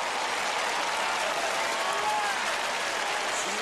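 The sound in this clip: Audience applause welcoming an opera singer onto a stage, a steady, dense wash of many hands clapping that holds at an even level throughout without a break.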